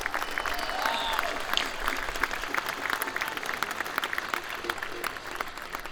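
Audience applause welcoming a young female mandolin player onstage: dense, steady clapping that holds at an even loudness for the whole stretch.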